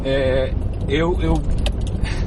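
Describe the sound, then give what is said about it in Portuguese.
A low, steady car rumble from city traffic in São Paulo runs beneath continuous talking, recorded by a camera bouncing along inside the traffic. “a câmera está pulando no meio do trânsito em São Paulo.”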